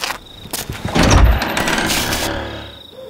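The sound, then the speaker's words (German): An old unlocked door in the oldest part of a manor house being opened: a few sharp clicks, then a loud, sustained rasping sound that swells and slowly fades away. “Die letzten 2 Schritte führen uns durch diese Tür. Kommen Sie! Die Tür ist nicht verschlossen.”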